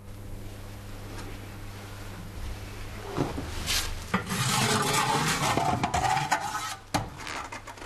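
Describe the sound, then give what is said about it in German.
Metallic scraping and rubbing as a chimney sweep pulls the flame tube out of a boiler to reach soot deposits. A low hum runs through the first few seconds, then rasping scrapes follow with a few sharp clunks. “Um an die Rußablagerungen zu kommen, muss er das Flammrohr herausziehen.”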